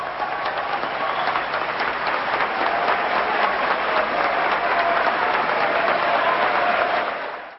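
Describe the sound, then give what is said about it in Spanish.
Dense applause from a large crowd after a political speech announcing suspension of Argentina's foreign debt payments, a loud, steady roar of clapping that swells slightly and holds before cutting off abruptly. “si seguimos escuchando el audio, los aplausos van creciendo y creciendo y creciendo, y en un momento es una ovación”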